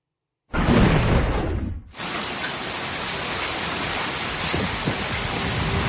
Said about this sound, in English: Yeah, you can hear it, right? That is the monsoon. It is starting to pick up across the Southwest.